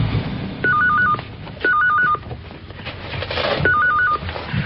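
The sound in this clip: Telephone ringing in three separate short bursts, each a warbling electronic trill, with brief quiet gaps between them over a low background murmur.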